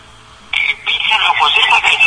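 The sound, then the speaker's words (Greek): A telephone rings with an incoming call: a bright, warbling high trill starts abruptly after a short quiet moment and carries on, fluttering, to the end. “Έχουμε και τηλέφωνα.”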